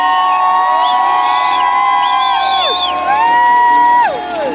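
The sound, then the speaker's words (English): A crowd cheering and whooping at a flame ceremony at Stoke Mandeville, a loud, sustained roar with high sliding whistle-like tones over it. “Please make some noise for the Canon Flames from Northern Ireland, Wales, Scotland and England. Stoke Mandeville, it's quite simple. Raise your voices, because this is our moment!”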